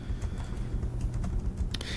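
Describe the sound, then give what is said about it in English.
Soft, quick keyboard typing as a note is written down, a brief run of irregular key taps, faint and alone. “I love that. Failure is a part of the process. I'm writing it down.”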